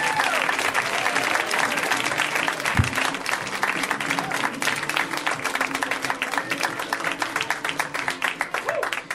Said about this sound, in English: Let's hear it right now for Eric Charles Nielsen. Give it up for Eric.